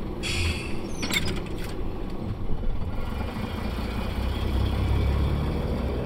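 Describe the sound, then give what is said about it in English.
Van engine driving: a steady, low, rumbling drone with road noise that holds evenly throughout, with a brief high hiss near the start. “And with that, they all piled into the van on their way to their destination.”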